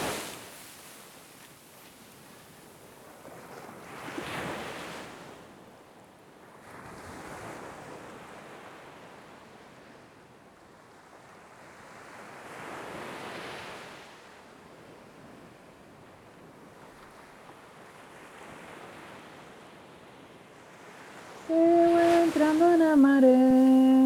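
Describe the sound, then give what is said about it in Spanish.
Gentle waves wash in at Pântano do Sul beach, where the water is calm and clear. Slow, soft surges rise and fade about every nine seconds, and a louder tonal sound breaks in at the end. “es aquí en mi prainha amada del Pantano del Sur. Lindo, lindo, está morninha, transparente a agua. Una piscina maravillosa.”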